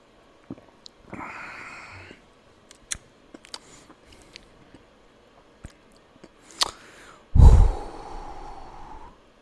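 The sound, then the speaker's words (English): Sipping and tasting a strong 11% bourbon-barrel IPA: a few faint mouth clicks and small sips with soft breathy sniffs, then a louder, drawn-out exhale near the end, with no talking. “I'm gonna try this beer.”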